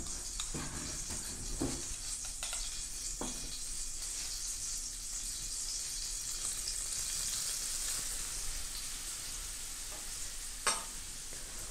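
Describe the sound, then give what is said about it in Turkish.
Shredded kadayif pastry sizzling in butter in a pan: a bright, steady frying hiss runs throughout, with a few soft stirring scrapes and one sharper clink near the end. “Mis gibi tereyağı koptu. Sonra yavaş yavaş kadayıflarımızı üstüne eklemeye başlıyorum.”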